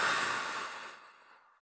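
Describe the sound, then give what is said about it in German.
A single deep breath during a short mindfulness pause, heard alone as a soft airy hiss that gradually thins and fades out after about a second and a half. “Einen tiefen Atemzug ein und einen tiefen Atemzug wieder aus.”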